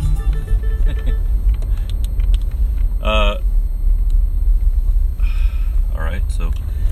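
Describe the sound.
Car driving on the road on the way to work: a loud, steady low rumble of engine and road noise fills the whole stretch, with brief bits of speech over it.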